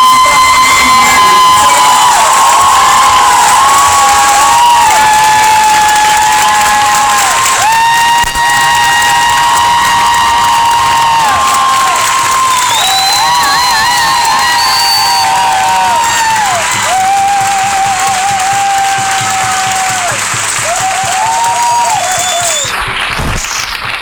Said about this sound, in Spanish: con ustedes, por favor, un enorme aplauso para María Galindo, para Silvia.